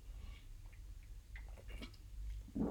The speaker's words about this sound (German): Ich muss mal kurz einen Schluck trinken hier. schon ganz trocken im Hals.